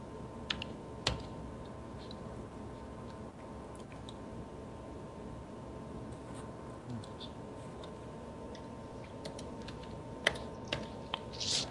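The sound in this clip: Someone types on a computer keyboard, giving faint, sporadic key clicks in small clusters with quiet gaps over a steady low background hum.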